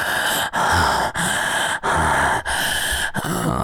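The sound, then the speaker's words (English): Hitching, gasping breaths, a run of heavy, rushing airy breaths that is broken by a few short catches where the breath stops before it rushes on again. “The hitches in your breath are so becoming of you”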